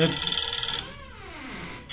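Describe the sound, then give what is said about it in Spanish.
A telephone rings: a bright, buzzing burst of ringing fills the first part, then gives way to a fainter, wavering tonal pattern. “¿No estás sonando el teléfono?”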